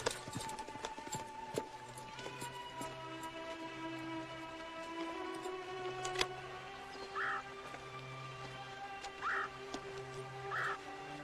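Horse hooves clip-clop as a rider mounts and sets off in a dubbed western film scene. Many sharp, irregular knocks sound over a steady background of low hum and sustained tones, with no talk.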